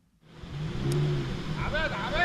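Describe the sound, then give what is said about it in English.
Cars drive one after another into the parking lot of an upscale shopping center in central Beirut, with a low engine rumble that swells and holds steady under a few brief higher tonal sounds near the end. “Car after car enters the parking lot of an upscale shopping center in central Beirut.”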